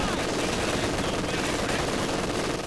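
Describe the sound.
Rapid machine gun fire in a video game battle: a dense, unbroken rattle of shots runs at a steady, loud level for the whole stretch, with no clear pauses between bursts.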